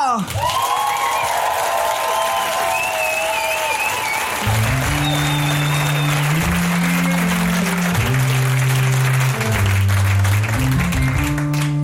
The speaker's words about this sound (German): Und als Musikerin ist sie sich dann wohl auch gewöhnt, wenn wir uns einen ganz einen lauten Applaus gönnen für sie.